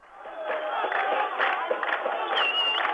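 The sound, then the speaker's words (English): A crowd cheers and shouts as exiled Palestinians cross the Allenby Bridge from Jordan into the West Bank, a loud, continuous roar of many voices that builds at the start and stays strong throughout. “Thousands of Palestinians waited all day in the hot sun for their friends and relatives to cross the Allenby Bridge from Jordan into the West Bank. When they finally arrived, the crowd went wild.”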